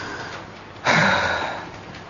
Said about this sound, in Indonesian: Dan yang ketiga, berdehem. Berdehem. Jadi menghembuskan nafas kayak